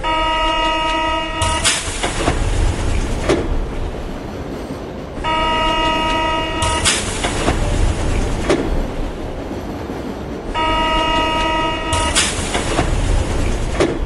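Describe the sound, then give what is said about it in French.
Metro train arriving at Saint-Lazare station, a steady loud rumble of wheels and running gear with three repeated high tonal whines, each lasting about a second and a half and recurring roughly every five seconds. “Je viens d'arriver à la gare Saint-Lazare. Beaucoup de touristes, mais aucune trace de notre fuyard. Je vais essayer d'aller plus loin en suivant la ligne verte.”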